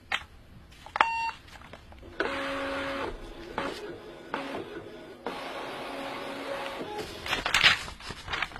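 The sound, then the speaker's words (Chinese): Fax machine sending a signal: a few beeps, then two longer stretches of buzzing electronic tones and a short burst of noisy chirping, fairly faint overall. “行，我这就给你传真信号。”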